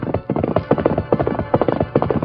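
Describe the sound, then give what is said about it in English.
Rapid hoofbeats of a horse galloping at top speed along a trail, a quick, even clip-clop rhythm that keeps up throughout. “The Lone Ranger rode at top speed in the gathering twilight.”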